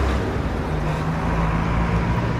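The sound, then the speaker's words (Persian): Minibus engine droning steadily as the vehicle drives off, a constant low rumble of road noise with no voices heard. “مینیبوس حرکت میکنه.”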